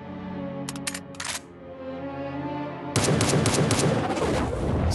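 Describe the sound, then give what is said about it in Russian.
Pistol gunshots crack in a quick cluster of a few sharp bursts, then give way to a louder, dense stretch of rapid, continuous firing. “бери пистолет и стреляй в него”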